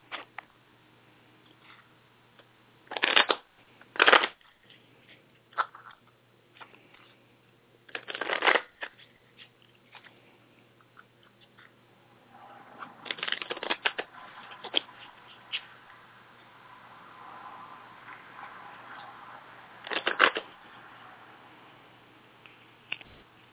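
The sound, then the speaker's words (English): A deck of cards is shuffled to pull a card for a reading: quiet rustling broken by several louder riffling bursts at irregular intervals, with a longer stretch of steady shuffling in the middle. “Okay, let me pull one more card regarding that.”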